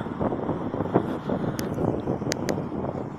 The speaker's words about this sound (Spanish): me voy a acercar hacia aquí y hace bastante viento, la verdad, ¿eh? es, increíble, ¿eh? Yo es lo que digo, cada vez que os grabo empieza a soplar el viento.